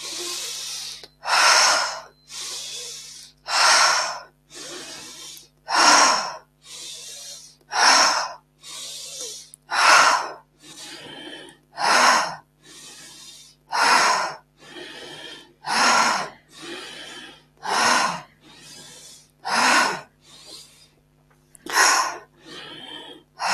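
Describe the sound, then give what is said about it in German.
Forced deep breathing in a breathing exercise, strong inhalations alternating with releasing exhalations, many loud breathy bursts in a steady rhythm with no talk. “Richtig forcierte, tiefe Einatmung, lösende Ausatmung.”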